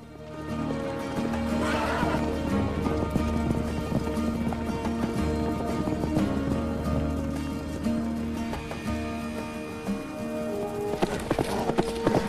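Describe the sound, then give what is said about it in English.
Hooves of a running herd following a Mustang horse drum steadily throughout, with repeated neighs and whinnies. The sound builds to a louder, busier burst near the end, and no one speaks. “Rob pulls the Mustang away from the edge and the herd follows.”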